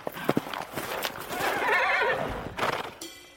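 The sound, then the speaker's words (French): A distant pony whinnies with a long, wavering neigh, accompanied by hoof beats clopping before and after it. “Un hennissement lointain lui répond.”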